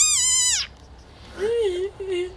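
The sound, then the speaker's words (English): High, squeaky call of a desert rain frog: one sustained, bright, whistle-like squeak that dips slightly at the end. A lower, softer voiced tone follows after a short pause. “This is the desert rain frog.”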